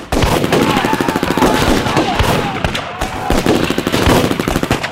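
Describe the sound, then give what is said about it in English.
Gunfire from shooters hidden in the trees during an ambush: loud, dense, rapid shots crackle continuously throughout, overlapping into a sustained barrage. “At a signal from Ryan, the Pilatans in the trees began to fire.”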